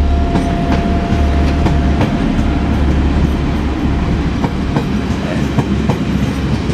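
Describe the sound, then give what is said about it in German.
A train bound for Sylt departs with a loud, steady rolling rumble. Repeated clickety-clack beats from the wheels run over the rails throughout, and no voices are heard. “Und jetzt fährt der Zug weg, der Leerfahrt von vorhin. Lass mal kurz vorbeidingeln.”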